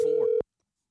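A brief, steady telephone line tone sounds at a single pitch for under half a second and then cuts off abruptly, leaving silence.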